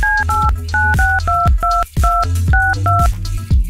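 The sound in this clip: Telephone keypad DTMF tones sound as a number is dialed: a rapid string of short, loud two-pitch beeps separated by brief gaps, steady and clear, with no voices.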